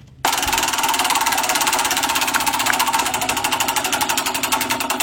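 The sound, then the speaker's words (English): A spinning wheel sound effect starts abruptly and runs as a loud, rapid, evenly spaced mechanical clicking, a steady ratchet-like buzz of many ticks that holds its pace for about five seconds. “By the way, I now have a wheel sound for the Wheel of Sound for you.”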